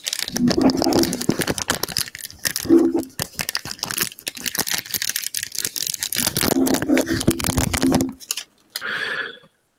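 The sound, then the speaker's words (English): Aluminium foil crinkles and tears as it is opened, in bursts of dense, crackling rustle with a pause in the middle and a brief softer rustle at the very end. “He's opening the foil.”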